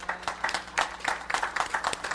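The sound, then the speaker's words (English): A church audience claps in praise for the choir after a morning hymn. The hand claps are dense and steady, and they overlap into a brisk, continuous patter at a moderate level. “This choir have sung out of their hearts this morning. Let's give them a hand clap of praise.”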